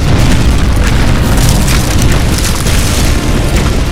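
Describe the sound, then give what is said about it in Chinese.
Heavy cannon bombardment in a radio drama, old-era cannons with limited range shelling a hillside below a mountain tribe: a loud, unbroken roar of booming rumble that holds steady for the whole stretch, with no single blast standing apart. “炮弹只是飞过树梢，对勇士们毫发无损。而当时的大炮射程有限，只能轰炸到半山腰，对山上的部落丝毫没有任何的破坏力。”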